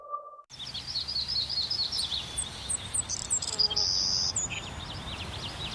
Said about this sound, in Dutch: Blijf genieten van het gefluit van vogels.